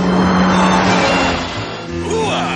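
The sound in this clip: A car engine roars at high speed while a blind colonel drives recklessly in a 1992 drama. The loud, gritty drone dips briefly midway and then surges again.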